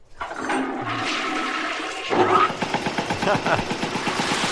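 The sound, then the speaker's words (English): A cartoon toilet flushing as a foley effect, the water swirling in its bowl. A loud rushing flush gives way midway to fast, repeated gurgling pulses that continue to the end. “Good toilet foley.”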